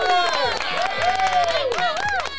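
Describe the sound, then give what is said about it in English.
A live studio audience cheers and claps for a musician being introduced on a show, with high whooping voices rising and falling over scattered clapping. “Wow, they're so excited. The 6 foot distanced live audience.”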